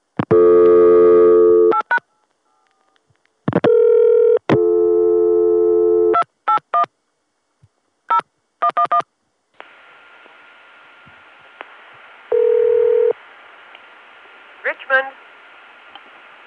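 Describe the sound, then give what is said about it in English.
Telephone tones after dialing an in-company number: several long, steady tone bursts and short beeps in an uneven sequence, then a hissing open line with one more steady tone and a few faint clicks. “so I tried dialing 2810-something and got this.”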